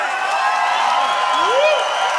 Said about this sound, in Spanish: un amigo, Don Rorro. ¡Un aplauso!